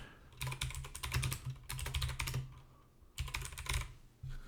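Fingers type a prompt on a computer keyboard, rapid clattering keystrokes in several quick bursts separated by short pauses, with no talk.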